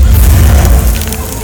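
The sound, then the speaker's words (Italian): A farm and its crops set on fire ignite with a loud, deep booming roar. The low rumble is sustained throughout, then eases slightly toward the end. “Senza preoccuparsi in alcun modo di Thomas, diedero fuoco alla fattoria.”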